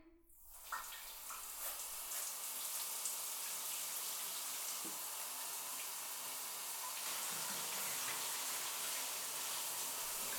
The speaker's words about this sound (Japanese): よし、かゆいところない？うん、じゃあ流してくね。